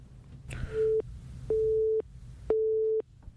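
Telephone busy tone after a caller's line dropped: three steady mid-pitched beeps of equal length, separated by even pauses, over a faint low rumble.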